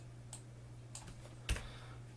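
Faint clicks of typing on a computer keyboard: a few sparse key presses, the last one slightly sharper and louder, over a steady low hum with no voices.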